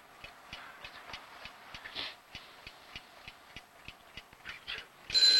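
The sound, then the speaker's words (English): Steady ticking of a round alarm clock showing 3 o'clock, a quick even rhythm of many soft ticks, with a brief louder rushing noise right at the end. “Mulligan lies fast asleep, cuddled up next to a round alarm clock that reads 3 o'clock”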